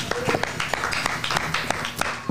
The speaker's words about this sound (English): Let's give another hand clap of praise for the words we just heard.